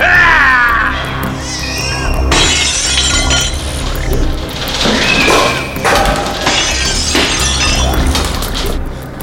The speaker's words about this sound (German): Die Wand zerbricht! Die Vampire greifen an!